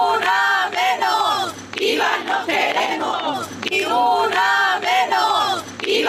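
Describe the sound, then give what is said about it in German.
Women's voices chant in unison on a night-time protest march through an old town. Two loud, rhythmic chant phrases repeat with a brief dip between them, over a crowd of shouting voices. “eine riesen Demo durch diese nächtliche Altstadt. Und ich dachte, was, wogegen demonstrieren die denn jetzt? Das klang in meinen Ohren so, ich will euch mal den O-Ton einspielen.”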